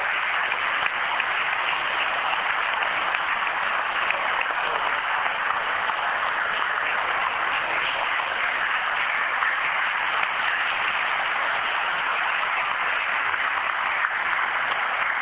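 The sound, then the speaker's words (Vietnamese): A church audience applauding, loud, dense clapping that holds steady and unbroken for the whole stretch. “Vỗ tay lớn lên. Để chúng ta đón người anh em của chúng ta đã trở về với cộng đoàn của chúng ta.”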